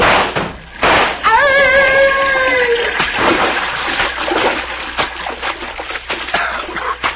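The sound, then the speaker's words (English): Splashing of people jumping into a river: loud, continuous turbulent water noise that churns throughout. “we will jump down into the river.”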